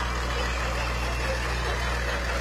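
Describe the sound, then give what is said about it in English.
Steady low rumble of an antique 1958 Farmall 560 tractor engine running, an even, continuous drone with no breaks or distinct events across the short stretch. “More antique tractors, 1958 Farm All 560.”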